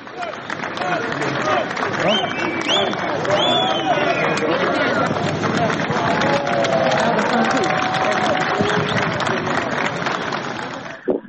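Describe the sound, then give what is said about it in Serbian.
A large crowd breaks into ovation and applause as the Albanian president steps out of his car and moves toward them to shake hands. The clapping and cheering continue for about eleven seconds, with shouts and chatter running through it at a sustained level. “kad je on izašao iz kola i krenuo ka masi da se rukuje sa ljudima, to je dočekano ovacijama i aplauzima. Možemo i da čujemo.”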